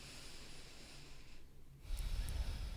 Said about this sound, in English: So let's all take a breath. Climb into our wombs. And let's do that again.